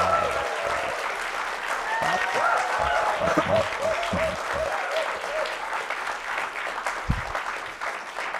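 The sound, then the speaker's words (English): Audience applause welcoming a guest at a university-hosted talk: dense, steady clapping that sustains throughout, with a few sharper individual claps standing out. “So a very warm welcome for Peter Hessler. Give it up.”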